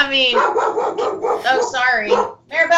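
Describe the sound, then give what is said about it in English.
A dog barks in short bursts beneath people talking, the barks mixed in with the voices rather than heard on their own. “That's my dog, everybody.”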